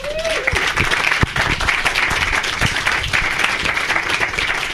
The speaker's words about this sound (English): So these are our three panelists. They're going to share what they wish they would have known years earlier, and please give them a warm welcome.